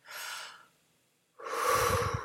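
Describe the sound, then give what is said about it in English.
Human breathing: a soft, airy breath, a short pause, then a louder, longer and rougher breath with a throaty, snort-like edge at its end. “It's your breath, and it is mainly used unconsciously by our autonomic nervous system for life support.”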